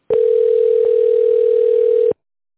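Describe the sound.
A telephone ringback tone plays while a call to a company's secretary connects. A single steady, mid-pitched electronic tone lasts about two seconds, starting and stopping abruptly.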